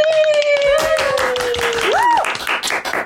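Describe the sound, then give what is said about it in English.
Audience applause and clapping welcoming a comedian to the microphone: a dense, steady wash of many hands, with a brief whistle-like tone sliding up and back down partway through before the clapping thins slightly. “Everybody, please put your hands together and welcome to the mic, the very funny, the very lovely Deborah Frances White.”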